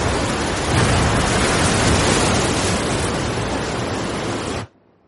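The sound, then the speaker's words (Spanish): Waves breaking hard on a small strip of wet sand in a cove below steep cliffs make a loud, continuous roar that holds steady, then cuts off abruptly near the end. “Las olas rompen con fuerza sobre la poca arena húmeda que queda en el entrante del acantilado.”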